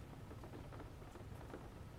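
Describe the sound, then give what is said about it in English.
Rain falling outside on a cold, miserable day: a soft, steady hiss with faint patter, continuous and quiet, with no voices. “I mean, just listen to that rain. It's really nice.”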